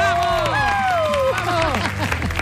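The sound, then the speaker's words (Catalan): Studio audience applause and cheering welcome a guest named Montse on a Catalan show. The clapping is dense and continuous, with voices calling out over it throughout. “Va, un aplaudiment per la Montse!”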